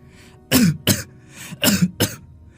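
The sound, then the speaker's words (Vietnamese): An old woman coughs violently in several hard, hacking bursts, some doubled, with short pauses between them, loud and rough with no words. “Bỗng bà cụ ho dữ dội, vừa ho bà vừa nói:”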